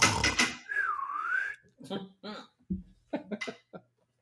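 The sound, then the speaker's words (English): A slide whistle sounds one short, smooth sliding tone that swoops in pitch, between bursts of people talking. “And that's where the slide whistle will come in.”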